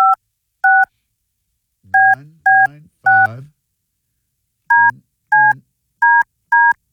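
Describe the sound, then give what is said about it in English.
Telephone keypad tones as a number is dialed: nine short, loud dual-pitch beeps in uneven groups with pauses between them, and a brief voice sounding under several of the beeps. “Simple, dial this number and let your voice be heard. I'm trying.”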